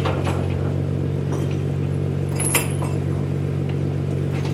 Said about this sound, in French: Ils crochettent des chaînes, ils décrochent des chaînes.